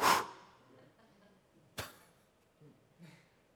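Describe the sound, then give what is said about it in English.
A preacher's voice imitates a puff of breath from the mouth, opening with a loud breathy burst that trails away, then a second sharp puff and a fainter third one later. “whom the Lord will consume with the breath of his mouth. I love that. This guy's going to exalt himself and call himself God, sit on the throne, and the Lord's going to go,”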